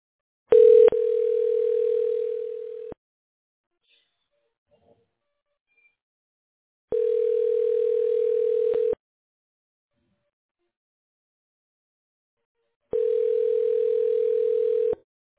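A telephone ringback tone sounds while a call to a flooring services business is connected: three steady, mid-pitched tones of about two seconds each, the first opening with a sharp click, separated by long silences.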